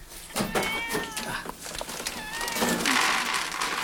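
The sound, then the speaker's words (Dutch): Cat meowing in a pitch-dark cellar beneath a huge apartment block: a few drawn-out, wavering meows, fairly loud, with rustling and shuffling noise around them and no talk. “Hier is ook een kat”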